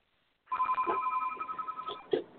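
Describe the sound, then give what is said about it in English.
A house telephone rings in one sustained, trilling electronic burst lasting about a second and a half. It starts abruptly after a silent moment and is fairly faint overall. “Yes, I told you that was my house phone. Excuse me. Okay. That was my house phone.”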